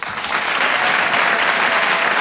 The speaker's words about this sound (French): Je vous demande un tonnerre d'applaudissements, s'il vous plaît, pour Walidia.